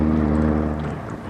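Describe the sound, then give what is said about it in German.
A motorboat's engine drones on the water, giving a low, steady, humming throb that stays fairly even throughout, with no voices. “Da kommt einer mit dem Motorboot.”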